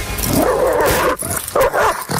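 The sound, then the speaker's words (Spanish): A dog snarls, growls and barks while biting a person, a loud, continuous burst of aggressive canine noise with a few short breaks, heard alone with no talk. “Ese es el sonido de un perro mordiendo a una persona.”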